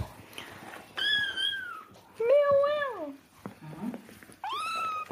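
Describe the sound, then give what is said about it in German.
Cats yowling in a fight: three long, drawn-out wailing meows with softer noise between them, the middle one lower and falling in pitch at its end. “Ja, Leute, das ist Katzenkloppe live.”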